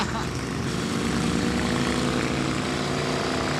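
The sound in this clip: A car's four-cylinder engine pulls hard at low revs, a dense and continuous low rumbling drone that stays steady and loud for the whole stretch without breaks.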